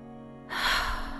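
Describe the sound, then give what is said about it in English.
A single deep breath drawn in as a relaxation practice: a soft, airy rush that begins after half a second of near-quiet, swells, then tapers slowly, with no talking. “breathing is not only relaxing, it's actually affecting my heart, my brain, my digestion, my immune system”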